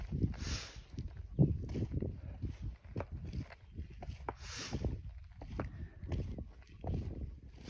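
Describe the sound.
Soft footsteps of a person walking alone, many steady steps in a regular rhythm over a low, faint background, with no talk.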